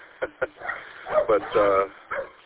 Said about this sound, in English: My dog is going a little nuts because the neighbors just came out.